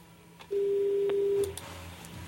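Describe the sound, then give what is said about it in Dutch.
A single long, steady electronic phone tone marks voicemail during a call. It is mid-pitched and fairly faint, lasts about a second, and is followed by low line noise. “Is het de voicemail? Ja, volgens mij wel.”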